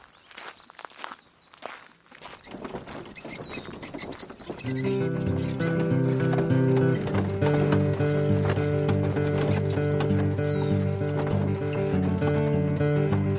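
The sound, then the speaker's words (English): A horse-drawn wagon arrives with rhythmic clip-clop of hooves: brisk, hollow knocking steps that start sparse and faint, then grow louder and more continuous, with a sustained tonal backdrop joining midway. “Binds and bridles, Arch. I'll go fetch the wagon.”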